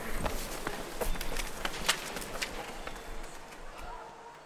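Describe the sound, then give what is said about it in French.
Footsteps climbing a flight of stairs to the top, many firm steps in a quick, steady rhythm. “On va sur les escaliers tout en haut.”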